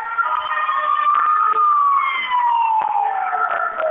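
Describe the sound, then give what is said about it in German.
An ambulance siren wails as emergency vehicles pass near a metro station during a large rescue operation, a loud sustained tone that sweeps slowly and drifts lower in pitch toward the end, with no voices. “aber es kommen immer wieder neue Krankenwagen hier vorbeigefahren, also ein riesiges Aufgebot.”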